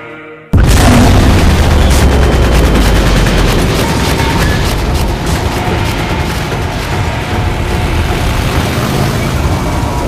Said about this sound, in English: Hundreds of gun barrels swing up to the sky, and with a mad cheer of every muzzle opens fire.